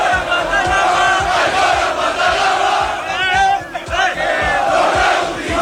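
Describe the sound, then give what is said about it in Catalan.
Barça football fans chant and roar in the street in the early morning hours, celebrating the league title, with a loud, dense crowd voice driven by steady rhythmic beats throughout. “Això que sentiu és part de les celebracions del títol de Lliga, era ja de matinada en calent”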